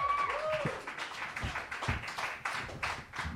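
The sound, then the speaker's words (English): An audience applauds at a live show in Detroit with dense, steady clapping, and a whistle cuts through near the start. “All right, put your hands together, everybody, right now for the Mean Boys!”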